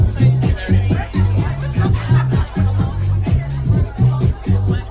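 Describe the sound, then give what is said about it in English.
Electronic dance music plays at a sauna rave where people dance in a hot, darkened space. A steady pounding beat and repeating deep bass notes loop evenly and loudly throughout. “That's the sound of a sauna rave, which are growing in popularity in cities like London, New York and Berlin.”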